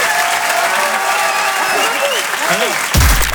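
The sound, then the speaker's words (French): Audience applause at a comedy club after a comedian's set: broad, steady clapping with a voice speaking over it. A louder burst comes near the end. “Bérangère Krief, on peut l'applaudir très fort”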